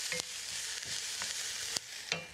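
Food frying in a pan while being stirred, browning with a steady crackling sizzle and several sharp scrapes and clinks of the utensil against the pan.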